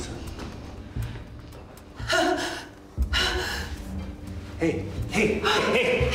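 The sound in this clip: Panicked gasping from a person in distress, with a few sharp, ragged breaths bursting over a low murmuring background.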